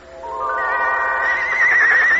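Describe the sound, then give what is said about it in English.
A horse whinnies, one of six white horses pulling a golden coach: a single sustained, tonal neigh lasting about two seconds that grows slightly louder and brighter toward the end. “Splendid. Splendid. One golden coach and 6 white horses.”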